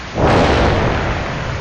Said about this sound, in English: Commence countdown. You, wir, drei, zwei, Blast off!